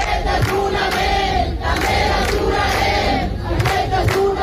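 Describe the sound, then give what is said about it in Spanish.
Crowd noise at a protest encampment in a Spanish city, Barcelona: many voices shout and chant together in a dense, steady, loud roar that carries through the whole stretch without pause. “Mientras, aproximadamente en torno a 15 ciudades de España mantienen sus acampadas, se mantienen allí y vamos a recoger los sonidos. Por ejemplo, así sonaba este jueves Barcelona.”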